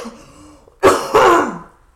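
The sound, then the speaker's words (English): Someone coughs and clears their throat while choking on a green smoothie. Two harsh, loud bursts come in quick succession, then trail off. “excuse me choking on my green smoothie here”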